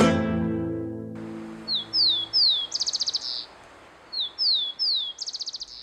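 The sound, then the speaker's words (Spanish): Song of a rufous-collared sparrow (chincol): two high, clear phrases, each made of three descending slurred whistles ending in a fast, buzzy trill. “Chincol. Alcanza unos 15 centímetros de longitud y es de color café con estrías oscuras, el vientre de color claro.”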